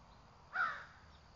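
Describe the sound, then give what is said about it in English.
A single harsh, loud crow caw breaks over a faint, steady background hum as crows gather and fly overhead, one bird calling out to announce the flock's flight. “the crows are gathering. So many just flew over, one sentinel to announce their flight.”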